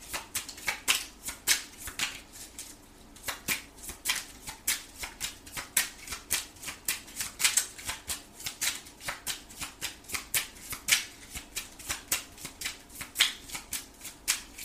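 Tarot cards shuffled and drawn from the deck, many crisp, rapid papery clicks and riffles in an uneven rhythm, with no voices.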